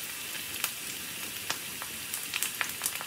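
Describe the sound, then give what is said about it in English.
Meat sizzling on a grill for a restaurant video of meat cooking, a steady bright hiss scattered with sharp crackles and a few louder pops. “Meat sizzling on a grill might be oddly satisfying”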